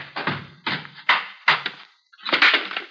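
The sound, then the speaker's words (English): A gun thrown down a flight of stairs lands in several hollow knocks and thuds at an uneven pace, then ends in a longer final clatter. No one speaks. “Throw your gun down the stairs ahead of you.”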